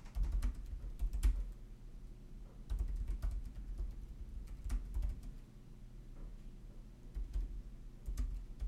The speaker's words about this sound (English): But I guess I gotta type it now.